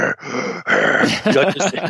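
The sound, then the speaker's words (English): A man's voice imitates Darth Vader-like breathing through oxygen, producing a few heavy, rasping breaths in quick succession, each separated by a short pause. “So this dude comes charging up, and he's breathing oxygen. So it's like listening to Darth Vader, like,”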